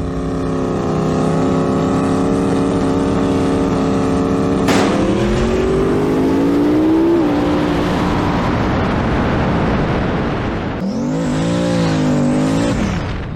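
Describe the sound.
A turbo Fox Body and a Firebird drag racing on asphalt: loud, sustained engine roar with strong harmonics, pitch climbing as the cars accelerate through gears, and another rising surge of revving near the end.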